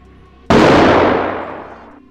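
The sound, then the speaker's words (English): A single pistol shot fired in a face-off between two men in a city garden: one sharp, loud report that cuts in abruptly and fades away over about a second and a half. “was in Gipp Street near Fitzroy Gardens when he heard the gunshot and saw smoke rising from the greenery”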